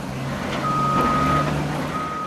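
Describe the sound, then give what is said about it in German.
Reversing beeps from garbage trucks at a waste transfer station in Porto Alegre, Brazil: long, steady high-pitched tones that sound, pause, and resume over a constant low engine rumble. “Permanent fahren LKWs durch das Eingangstor, um den Müll von mehr als 1,3 Millionen Menschen abzuladen.”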